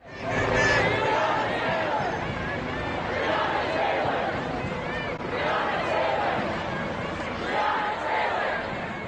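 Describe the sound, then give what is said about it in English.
Hundreds of protesters march peacefully in Boston, calling for justice for Breonna Taylor, creating a steady, dense crowd roar of many overlapping voices with occasional swelling shouts. “And that's the sound of hundreds of protesters peacefully marching in Boston yesterday, calling for justice for Breonna Taylor,”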